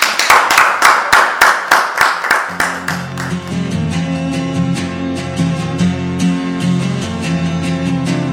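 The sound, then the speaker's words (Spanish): Audience applause for a person: a group claps in a steady, even rhythm for a couple of seconds, then a musical tone takes over while lighter clapping continues underneath. “Un aplauso para Juan.”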